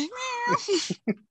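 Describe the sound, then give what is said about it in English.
A cat meows for attention: one drawn-out, wavering meow followed by a few shorter, softer mews and chirps, fairly faint overall. “Oh, there's a kitty. Oh, she wanted attention.”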